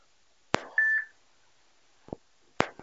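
Phone call being ended: a sharp click, a brief high electronic beep, then a few more clicks on the line.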